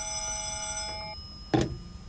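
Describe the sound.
A telephone rings with a steady, bright electronic trill that cuts off after about a second; a short, loud clatter follows, like the handset being lifted.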